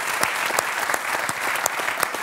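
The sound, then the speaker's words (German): Audience applause: a full, even clatter of many hands, with a number of sharper individual claps popping out above the crowd at irregular moments throughout. “Ihr Applaus.”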